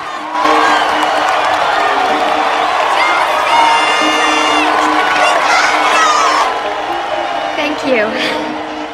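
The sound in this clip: A cheering crowd at a baseball field roars steadily, with whoops and excited shouts, some sounding like children, rising over the din. The cheering holds loud and continuous throughout and eases slightly toward the end.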